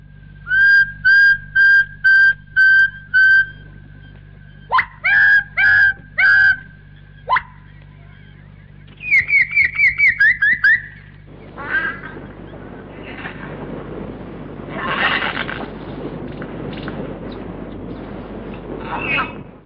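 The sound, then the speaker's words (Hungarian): A bird starts to sing with several loud, clear, whistled notes in short repeated bursts. A faster run of higher, warbling notes follows, then the song gives way to broad rushing noise and muffled sounds. “Igen, a madár mozdulata elárulja, hogy azonnal kezdi.”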